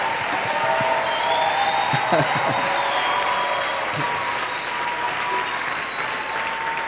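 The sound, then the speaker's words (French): Church audience of children and parents applauding, sustained dense clapping at a steady level with voices faintly mixed in underneath. “Là, qui acclame, les enfants ou les parents?”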